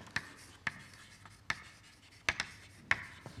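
Writing an equation during a physics lecture: a series of sharp, irregularly spaced tapping strokes with short scratches between them, fairly faint, with no talk.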